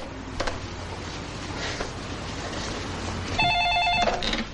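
A telephone rings after a number is dialled. One short ringing burst comes near the end over a steady low background noise, with no voices.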